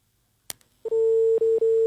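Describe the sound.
A telephone line going dead after a dropped call: one sharp click, then a loud, steady electronic tone that cuts out briefly twice.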